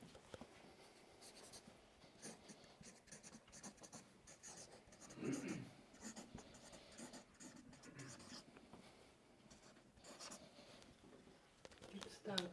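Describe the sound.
Hand writing gives off a steady scratchy rustle of strokes across paper, with a few stronger bursts midway and at the end, beneath a person talking throughout.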